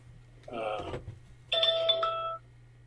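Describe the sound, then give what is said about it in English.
A phone ringtone plays as two bursts of bright electronic chime tones. The first burst is shorter and warbling. The second holds clearer sustained notes before it stops abruptly. “hold on a sec. My phone's ringing.”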